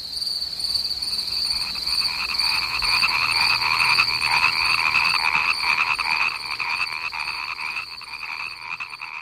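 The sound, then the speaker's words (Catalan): A dense chorus of croaking frogs, a steady trilling drone that holds throughout at an even, fairly loud level, with shrill, insect-like pulsing layered in. “Sóc la granota. Ja, ja, la granota.”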